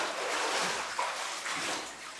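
Water sloshing from a baptism by immersion: a faint, steady, hissing wash of moving water with no sharp single splash standing out.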